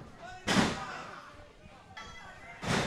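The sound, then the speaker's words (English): Two heavy thuds of a wrestler's body slam hitting the ring mat during a pro wrestling match, each a sharp, booming impact with a brief resonant tail, spaced about two seconds apart over a faint background. “nice body slam”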